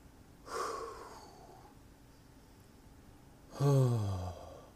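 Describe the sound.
Two deep breaths, the first a soft airy rush and the second louder and voiced, close to a groaning sigh, with quiet gaps around them and no talk.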